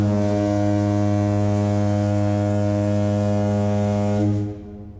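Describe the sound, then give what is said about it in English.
A single long foghorn blast used as a spoiler horn sound effect: a deep, loud, steady horn tone rich in harmonics holds for about four seconds, then cuts off and fades quickly. “We kind of been nice without the spoilers, but I'm going to fire off the spoiler horn now.”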